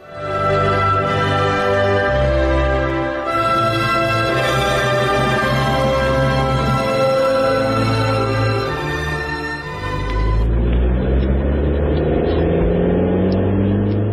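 Car engine droning steadily as the vehicle is driven with passengers inside: a loud, continuous, harmonic-rich hum that shifts character slightly about two-thirds of the way through, with no voices.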